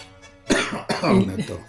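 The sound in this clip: Two rough, loud coughs in quick succession, the second trailing into a throaty, voiced rasp.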